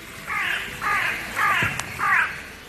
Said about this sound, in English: And then, to my great satisfaction, I hear a crow calling out.